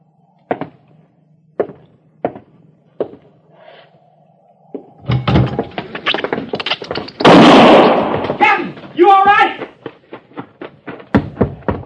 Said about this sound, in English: Just a rat, Harrison. I shot it.